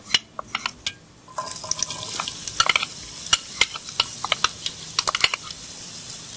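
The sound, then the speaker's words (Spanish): Garlic frying in a little oil in a pot, giving a quiet crackling sizzle of sharp, irregular pops and ticks over a soft steady hiss. “Le ponemos un chiquitito de aceite a nuestra olla. Luego le echamos el ajo para que le dé sabor.”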